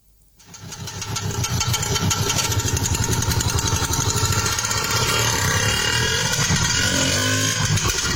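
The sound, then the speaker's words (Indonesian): The small engine of a three-wheeled bajaj auto rickshaw runs on the city streets of Yogyakarta. It climbs from near silence into a loud, steady, rattling, throbbing drone that holds to the end. “Hampir setiap hari, lalu lalang bajai atau kendaraan beroda tiga itu membelah jalanan di kota Yogyakarta.”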